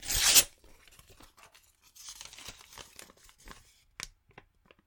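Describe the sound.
A letter envelope is torn open: one loud, quick paper rip at the start, then softer crinkling and rustling of paper with a few small sharp ticks.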